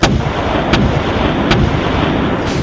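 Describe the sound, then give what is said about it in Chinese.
Air cannon blasts: a few sharp, booming reports spaced under a second apart over a dense, continuous rumble. “胖虎火了，举起空气炮照着他们就是几炮。”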